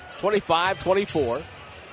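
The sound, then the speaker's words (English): A basketball bounces before a free throw at an NBA game in Detroit, Warriors against Detroit, its few dull thuds sitting beneath a commentator's steady, loud talk. “Here in Detroit. Free throw by Chris, no good.”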